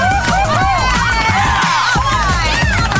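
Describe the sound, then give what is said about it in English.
Hooting and hollering crowd cheering sound effect triggered from a button: a loud, continuous wash of many whooping, yelling voices with rising and falling hoots throughout. “So I should be hitting a button right now that's a hooting and a hollering, and you're supposed to be excited, and you've won”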